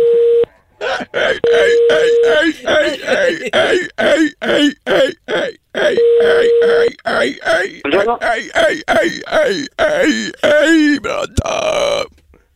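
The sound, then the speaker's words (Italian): A man imitates a seal with his voice, a long run of rough, barking and groaning vocal bursts in quick, uneven rhythm that fills the whole stretch, loud and close. “stavo facendo la foca”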